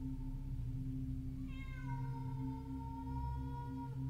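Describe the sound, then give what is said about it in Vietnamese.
A cat's eerie, drawn-out yowl, like a cat in heat, rises among graves as one long wavering call with harmonics that sinks slightly in pitch. It sounds over a steady low drone. “Những tiếng kêu ma quái vang lên cứ như là lúc lũ mèo đang trong thời kỳ động đực, loáng thoáng nghe cứ như là trẻ con đòi bú sữa.”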